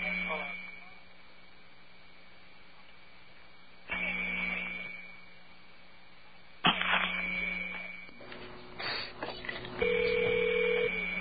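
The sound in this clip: A telephone ringback tone sounds on a payphone call placed through an operator, one steady low tone near the end that follows line hiss and a few clicks.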